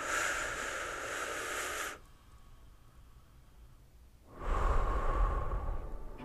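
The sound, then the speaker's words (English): Slow, deep breathing taken to relax: two long, airy breaths separated by a quiet pause of about two seconds, the second slightly louder and fuller, with no talking. “let's take a deep breath to relax.”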